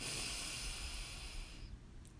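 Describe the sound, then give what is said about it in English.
A steady, airy breath drawn in during a guided breathing exercise. It is a soft, continuous hiss lasting about two seconds and thinning toward the end, with no talk. “So breathe in and out. Ah. Breathe in”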